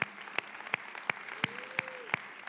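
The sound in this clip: A church audience claps in a slow, steady rhythm to welcome the campuses joining them, the claps faint and evenly spaced, with a soft sustained tone drifting in the middle.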